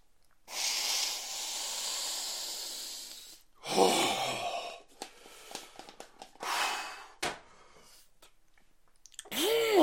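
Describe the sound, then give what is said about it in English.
Loud nasal snorting and hissing breaths from a man during a drink: one long, sustained rushing snort followed by several shorter, sharper bursts and irregular small noises. “Oh, big chug. I'm gonna snort some of this.”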